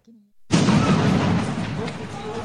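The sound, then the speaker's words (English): An artillery shell is fired at Russian security forces patrolling a border: after a brief voice, a sudden loud blast bursts out and rolls into a long, sustained rumble. “A shell is fired at Russian security forces patrolling the border.”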